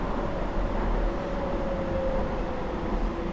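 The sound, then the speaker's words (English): A passenger train running, heard as a steady low rumble with a faint, even whine above it throughout. No voices are heard. “This train is for Woolwich Arsenal via London City Airport. The next stop is East India.”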